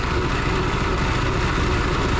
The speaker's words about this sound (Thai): ตัวเครื่องเนี่ยมันจะหมุนนะครับโดยข้างในมันจะเป็นท่อนะครับแล้วมันก็จะตามแรงของเครื่องนะครับเพื่อจะสะบัดให้ปลาออกจากตัวอวนนี้ไปนะครับ